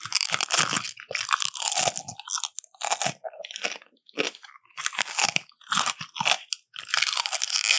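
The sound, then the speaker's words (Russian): Crunchy vegetable-berry food is chewed in a mukbang eating session. Loud, crisp crunching comes in many bursts with an irregular rhythm and brief pauses between bites. Nobody speaks. “Опять же, какой-то овощно-ягодный хруст.”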